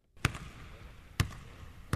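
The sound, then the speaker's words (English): A basketball bounces three times at uneven intervals as a player shoots baskets before practice with a professional team in Greece, each a crisp, hollow thud over a faint background hum. “Mike Batiste watches as a teammate shoots baskets before practice.”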